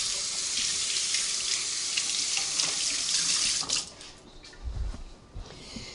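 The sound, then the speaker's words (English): Tap water runs into a kitchen sink while hands are washed during the making of blue cheese dressing. A steady, bright hiss lasts several seconds, then the flow is shut off and a few faint low knocks follow. “All right, I gotta wash again.”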